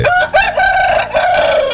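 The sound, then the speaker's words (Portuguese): A rooster crows loudly and alone, its crow sounding choked: one long, harmonic, strained call broken by short catches and wavering pitch. “Opa, esse galo aí parece que engasgou.”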